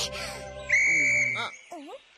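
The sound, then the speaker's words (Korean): A whistle blown once as a call for help when lost, a sustained high, steady tone, with voice-like sounds just before and after it. “갑자기 호루라기는 왜 부른 거야? 아, 길을 잃어버렸을 때 호루라기를 불라고 했잖아.”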